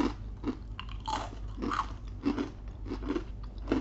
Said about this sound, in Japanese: おせんべい今私が持ってるのはこの海苔がついてるおせんべいですが、はい、じゃあ食べてみてくださいわ、かりましたどうぞじゃあ私ごまをいただいてます